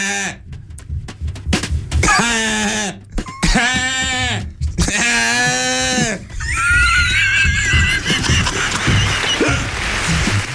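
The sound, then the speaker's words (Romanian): Bleating of a drunk sheep: three long, quavering bleats follow one another, then higher warbling sounds mix with noise, and people talk around them. “Îți dai seama că beata oaie i-a nebunit pe ăștia, pe cercetători.”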